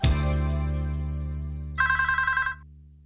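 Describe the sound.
A telephone rings: a bright tone that slowly decays, then a short burst of rapid, trilling ringing before it stops.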